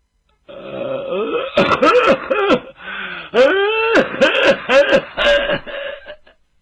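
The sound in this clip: A storyteller's voice imitates an old general's coughing fit with a string of voiced, groaning coughs and hacks in irregular bursts. The pitch strains and swoops, and the coughs fade into rasps at the end.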